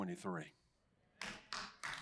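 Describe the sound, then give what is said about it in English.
Three sharp hand claps from a church audience, spaced about a third of a second apart, follow a brief spoken voice and a short quiet gap. “Yeah, I'll take a few hand claps.”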